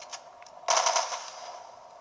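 Gunfire in a video game: a sudden loud crackling burst of shots rings out and then fades into a lingering noisy tail, preceded by a few faint clicks.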